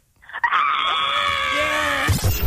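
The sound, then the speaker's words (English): A person screaming: one long, loud, high-pitched scream held steady for well over a second, cut off by a short burst of noise at the end. “Scream to get us out of here”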